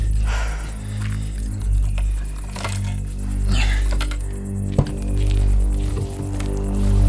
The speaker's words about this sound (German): Schlüssel habe ich besorgt.